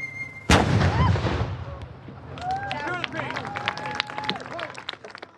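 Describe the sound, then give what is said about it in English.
A gunfire volley fired on command erupts as one sudden, loud, sharp blast, then rumbles and fades under a crowd's murmur and scattered voices. “Guys, you want to cover your ears? Now's the time. Fire!”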